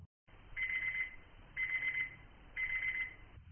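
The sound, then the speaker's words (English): A digital alarm clock beeping in three evenly spaced bursts of rapid, high-pitched electronic beeps, about a second apart, over a faint low hiss. “It's a digital alarm clock. We might use it to wake us up in the morning.”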